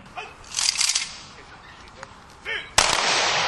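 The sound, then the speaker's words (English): A ceremonial gunfire salute rings out at a World War I memorial tribute in Waregem, Flanders, Belgium. A few faint bursts of reports come first, then a sudden sharp blast is followed by a sustained rumbling roar. “The guns heard in Flanders Fields now are part of a tribute by the tiny city of Waregem that's taken place every peacetime year since the end of World War I.”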